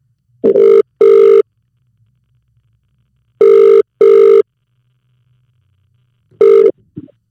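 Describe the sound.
A telephone ringback tone sounds while a call is being placed: two full double-burst rings separated by long silences, then the first burst of a third ring, followed by a faint brief sound.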